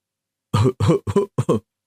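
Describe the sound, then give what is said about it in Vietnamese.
A run of six short, light coughs from a president, in quick uneven bursts after a moment of silence, with no talking over them. “Tổng thống Mỹ quốc ho nhẹ một tiếng”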